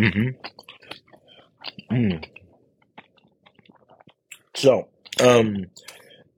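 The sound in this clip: Chewing a sesame bagel with cream cheese and bacon: faint, wet mouth clicks and soft crunches scattered through near-silence, broken by a few louder vocal bursts.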